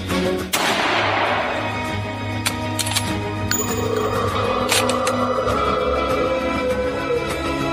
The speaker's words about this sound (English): One of the miners raised his rifle, took aim, and fired.